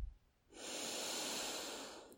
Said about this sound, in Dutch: Adem nog eventjes heel diep in.